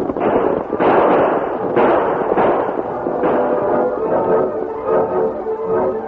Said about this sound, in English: As the outlaws rode out in front of the buckboard, firing shots over the heads of the deputy and the masked man, the Lone Ranger